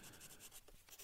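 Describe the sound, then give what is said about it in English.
Pen writing on paper makes a faint, quick scratching of a few rapid strokes in about a second. “Stop writing.”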